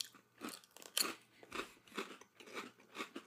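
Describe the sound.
Crunching of honey habanero Ruffles potato chips being bitten and chewed, a steady series of crisp, faint crunches at a regular rhythm, with no talking.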